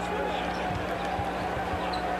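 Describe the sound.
A basketball is dribbled during a game, giving dull low bounces under steady crowd noise, with a voice talking over it.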